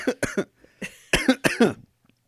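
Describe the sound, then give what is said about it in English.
A person coughs in a rapid series of sharp, loud bursts, several short barks bunched together, then a brief gap, then a few heavier coughs before it trails off into silence. “Should have hit the cough button for that one.”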